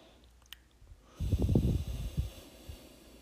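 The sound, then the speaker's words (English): One deep breath during a calming relaxation exercise, a loud, rough rush of air lasting about a second that gives way to soft breathing noise and then quiet. “breathe in right now, breathe in deeply right now. And when you breathe out, feel yourself sinking deeper and deeper and deeper inside of your body.”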